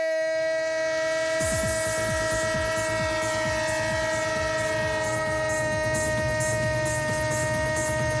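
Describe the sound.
Train sound effect in a sports jingle: a sustained, chord-like train horn holds throughout, and after a moment a loud, rhythmic clatter of wheels on rails joins it. No voices are heard.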